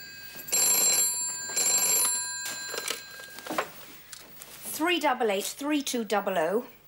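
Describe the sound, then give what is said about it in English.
A telephone rings in two long bursts of bright, metallic bell trilling, followed by a voice speaking. “Excuse me. That's the phone.”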